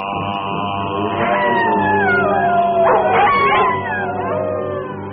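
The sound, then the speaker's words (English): A wolf howls in long, loud, wavering cries that slide downward in pitch, with several overlapping howls weaving together without pause. “While the wolf in nightly prowl bathes the moon with hideous howl.”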